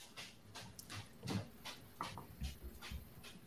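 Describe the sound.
Two bulldogs making quiet, rhythmic panting and snuffling sounds, a series of soft breathy bursts that repeat every half second or so. No clear barks.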